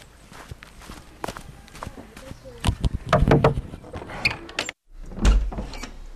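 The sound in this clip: Footsteps of someone walking to a warehouse, a long run of soft scuffing steps that grows louder midway, breaks off in a brief silence near the end, then resumes.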